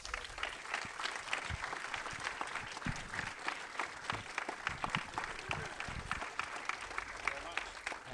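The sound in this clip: Applause welcomes a guest onto the stage, faint and steady clapping from many hands that continues throughout, with speech mixed in.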